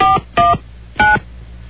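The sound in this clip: Telephone keypad touch tones, the dual-pitch signals used to enter a topic number on a phone menu. Three short, even tones sound alone with a pause between each, the last after a longer gap.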